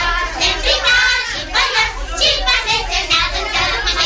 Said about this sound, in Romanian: Copiii din cartierul Gări.